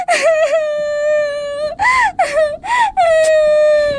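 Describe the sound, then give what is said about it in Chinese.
A girl crying loudly in high, wavering wails, broken into a few sobbing bursts separated by short catches of breath, the pitch swooping up and down within each cry. “我说你能不能先不哭啊？”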